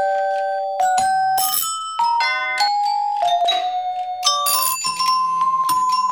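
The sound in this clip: Doorbell chimes ring out in a quick melodic series of many bright, bell-like tones that jump between higher and lower pitches. Each strike is clear and loud, with short pauses between groups of notes.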